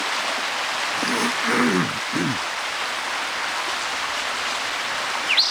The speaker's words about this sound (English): Bad creek noise.